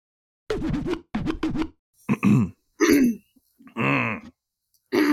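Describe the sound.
Someone chokes and falls into a coughing fit, a run of rough, throaty coughs and throat-clearing bursts separated by short silent gaps.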